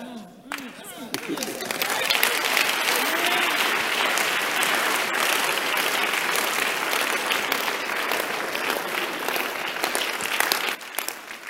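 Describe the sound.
A church audience claps for Jesus during a sermon on true prosperity: dense, steady applause with crowd noise that fills about ten seconds before cutting off, with a voice briefly audible at the start.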